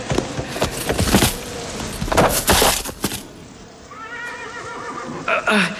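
A horse whinnies in a wavering, high-pitched call toward the end, after loud rushing bursts of noise as its rider is thrown by the wind.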